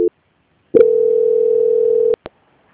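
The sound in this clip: Telephone line tone during a call transfer: a clipped beep at the start, then one long, steady, level tone lasting over a second, cut off by two sharp clicks.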